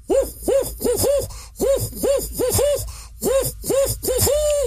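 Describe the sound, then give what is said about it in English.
A person's voice imitates a barred owl's hooting: a rapid run of many rounded hoo notes in rhythmic groups, ending in one longer drawn-out hoot, loud and alone. “the barred owl for sure, that you've probably heard before, that makes the hooting sound, kind of goes like this”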